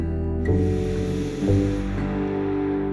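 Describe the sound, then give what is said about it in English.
A slow breath drawn in through the nose during meditation makes a soft, airy hiss for about a second and a half. It sits over a steady, sustained tonal drone. “Breathe in a slow, natural breath through your nose.”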